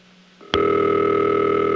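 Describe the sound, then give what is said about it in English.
Telephone ringtone carried over two third-generation digital T-carrier links and through two 4A switches: a faint low hum, a short click, then a steady, bright, buzzy tone that holds evenly to the end. “Let's just listen to a ringtone. Now this is two third-generation T-Carrier links through two 4As.”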